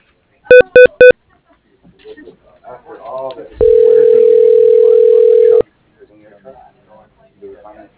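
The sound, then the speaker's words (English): Telephone tones during a call transfer: three short beeps at the start, then talk, then a single steady ringing tone lasting about two seconds, followed by more talk. “And I'll transfer you to her voicemail.”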